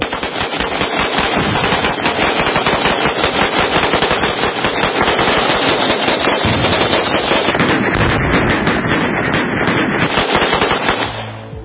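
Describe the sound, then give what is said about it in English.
Rapid, sustained gunfire is aimed at a mannequin target rigged with Tannerite. Dense, loud shots run almost without pause before tapering off at the very end. “wrapping an ISIS flag around it, and sticking a clown wig on top of it with some Tannerite and blowing it up. And the results were somewhat spectacular.”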